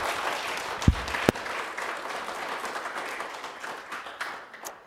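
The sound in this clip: An audience applauds to welcome a guest speaker, a steady wash of clapping with a couple of sharp, louder claps near the start, gradually thinning toward the end.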